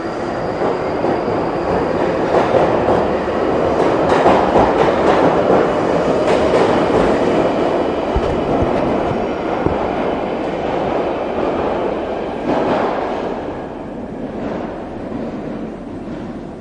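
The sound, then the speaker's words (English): A London Underground train pulls away with a loud, continuous rumble, rattling clatter and high squealing wheels. The din holds steady, then eases slightly toward the end. “And here's the underground pulling away.”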